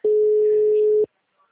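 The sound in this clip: One steady mid-pitched ringing tone from an unanswered phone call, lasting about a second and then cutting to silence.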